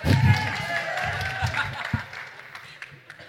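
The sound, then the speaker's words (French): Audience applause for the jury at a startup pitch competition during a digital-industry event, starting as a dense burst of clapping and gradually thinning and fading, with talk underneath. “On peut les applaudir quand même. Hein Bah, applaudissez-les bien parce qu'après c'est eux qui vont vous juger.”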